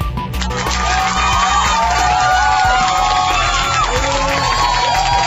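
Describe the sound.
A live audience cheers loudly with whoops and shouts, a dense, sustained roar that stays level from start to finish.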